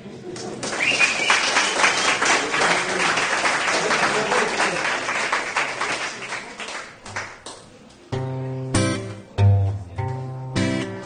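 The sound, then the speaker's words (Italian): Crowd applause forms a dense run of clapping for about seven seconds, then thins to scattered claps. Plucked guitar notes take over at the end. “Qua vorrei l'applauso.”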